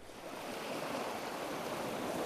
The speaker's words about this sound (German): Nur das Geräusch des Meeres.